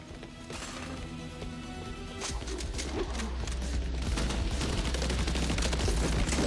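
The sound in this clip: Rifle gunfire in an action film: many sharp, rapid shots over a low, steady rumble. The shots grow louder and denser after the first two seconds.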